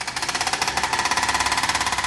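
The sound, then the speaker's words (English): A hydraulic drill rattles on a Paris construction site in the north of the city, a loud, rapid, steady hammering of evenly spaced pulses that continues without pause. “A hydraulic drill rattles on a site in the north of Paris where there'll soon be a skyscraper made of 4 stacked steel and glass boxes.”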